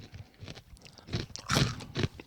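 Crunching and chewing of a hard, very salty, garlicky popped snack: a few quiet, scattered crunches swell into louder chomps near the end.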